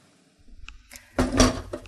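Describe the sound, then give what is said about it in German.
A metal grater set into a bowl before grating potatoes in a home kitchen: a few soft taps, then one louder clattering knock with a brief rattle, fairly faint, with no talk. “jetzt nehmen wir die Reibe in eine Schüssel”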